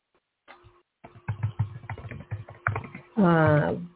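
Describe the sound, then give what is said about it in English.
Typing on a computer keyboard: many quick, irregular keystroke clicks in uneven bursts for about two seconds, with a voice starting up loudly at the end. “It's hard for me to type and talk at the same time.”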